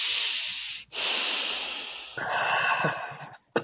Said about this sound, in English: Again, take another deep breath.